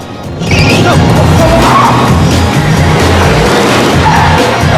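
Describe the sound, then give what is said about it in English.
A getaway car speeding off after a robbery gives a loud, continuous rushing roar of engine and road noise that swells in quickly and holds steady, with hints of tire skidding. “the car speeds away”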